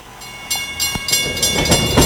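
A train runs on rails in Argentina, its wheels clacking rhythmically over the track joints in a series of sharp bursts over a continuous rumble. The clacks grow slightly louder toward the end.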